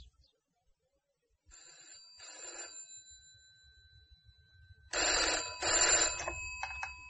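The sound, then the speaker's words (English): A telephone rings in bursts: a softer electronic double ring first, then after a pause a louder, longer ringing with repeated pulses over faint low background noise. “No, that's my phone.”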